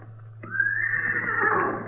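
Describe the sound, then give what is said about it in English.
A horse neighs in one long, loud whinny beside a burned-out wagon. The call wavers high and strained before trailing off, over a steady low hum. “That's his horse, too.”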